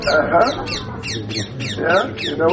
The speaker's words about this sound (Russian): You hear what she said? Слышите, что сказал попугай?